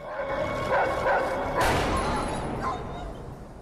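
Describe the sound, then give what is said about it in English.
A dog belonging to a homeless man camped in a tunnel barks at a man, giving a few sharp barks within a dense, noisy mix. “A homeless man is camped in the tunnel. His dog barks at Alistair.”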